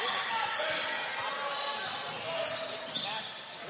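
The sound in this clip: Basketball dribbled on a court at the top of the key during a game against Fort Recovery: repeated bounces under steady, dense crowd noise and voices in the gym.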